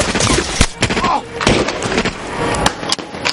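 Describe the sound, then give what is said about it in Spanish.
Gunfire in a Second World War battle, as soldiers in a forest shoot at German soldiers on the coast. Sharp, irregular bangs cut through a dense, noisy wash of sound. “Los soldados del bosque corren, alejándose de Peter, y disparan a los soldados alemanes de la costa.”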